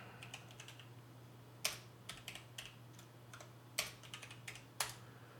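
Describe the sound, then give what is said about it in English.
Typing a search into YouTube on a computer keyboard: many faint, irregular keystroke clicks with a few sharper, louder taps, over a low steady hum. “Yeah, when I go to YouTube and type in Andrew Breitbart War, then it's like the number two thing.”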